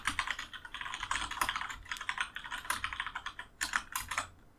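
Keyboard typing as a search is entered into Netflix: rapid, continuous keystrokes clatter steadily throughout, with many crisp clicks and no voices.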